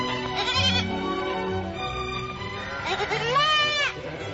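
Livestock bleat while grazing on pasture: two wavering, quivering bleats a few seconds apart, the second longer and louder, over a low, busy background.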